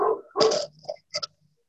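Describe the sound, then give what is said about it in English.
A pet dog barks a few short, sharp times during a council meeting, the barks standing out against an otherwise quiet background with brief gaps between them. “any ordinance we're distracted by our dog”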